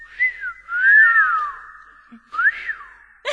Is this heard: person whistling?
yes